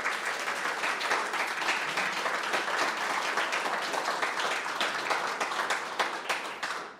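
An audience welcomes a panel at a cultural debate with applause, a steady wash of many hands clapping, even and sustained for about seven seconds before tapering off at the end.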